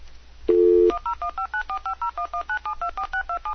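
Touch-tone telephone keypad dialing a long international number to Israel: a brief steady tone, then a fast, evenly spaced run of many short two-pitch DTMF beeps, clear and alone.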